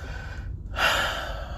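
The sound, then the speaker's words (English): A single deep breath drawn in: one airy, noisy inhale that swells and then tapers off over about a second, heard alone with no talking. “I take a deep breath for a reason.”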